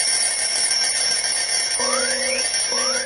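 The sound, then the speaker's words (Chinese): An alarm clock rings in two short electronic bursts, each a steady beeping tone with a rising sweep, over a continuous tonal background. “关上了闹钟”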